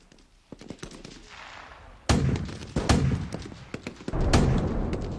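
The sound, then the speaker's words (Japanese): Bombs and rockets exploding near a village in a radio drama, a series of booming blasts and rattling cracks, the heavier impacts growing louder toward the end. “爆弾が近づいてる。村を出るまでは走った方がいいな。”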